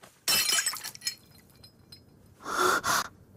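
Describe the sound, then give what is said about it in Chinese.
A bowl of porridge drops to the floor and shatters in a bright, noisy crash with a brief rattle of pieces, followed by a second loud burst of noise after a short pause, in a drama scene. “他手中的碗掉在地上，打碎”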